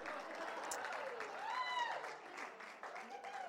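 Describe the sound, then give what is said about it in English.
Audience applause welcoming a speaker to the stage at a morning gathering: soft, steady clapping runs through the whole stretch, with a voice heard over it. “why don't you put your hands together and welcome Jeff this morning”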